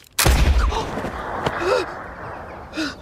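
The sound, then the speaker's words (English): A gun fired without its pellet loaded gives a single loud, sharp bang with a heavy low thump near the start, then quieter sounds and faint brief vocal noises. “If you forget to load the pellet, the gun fires, makes a sound, but releases no shot.”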